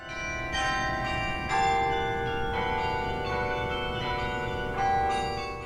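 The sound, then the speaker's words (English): Carillon bells, a 61-bell instrument played from a campus tower, strike a few notes in turn, their bright overlapping tones ringing and sustaining between strikes. “That's the sound of the carillon emanating from Stork Tower at UC Santa Barbara.”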